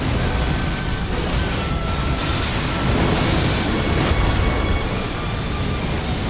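A continuous, loud roaring blast of fire from the Elden Beast's golden fire attack in the video game Elden Ring, a dense rushing rumble that holds at steady strength for the whole stretch.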